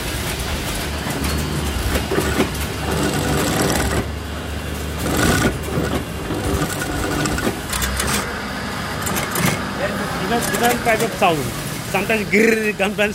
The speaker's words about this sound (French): Mademoiselle derrière qui est en train de mettre les scratchs d'un pantalon.